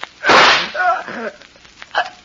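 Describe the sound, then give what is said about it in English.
One loud, sharp gunshot from a gun in a drama scene bursts out early, then decays over a brief tail, and a few short voiced sounds follow. “You. You shot me. The gun wasn't empty.”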